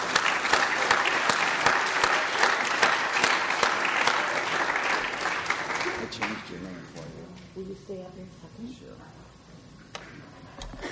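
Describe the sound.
Warm audience applause welcomes a speaker at a recovery step-series session, loud and dense at first, then thinning out partway through as a voice begins to come through.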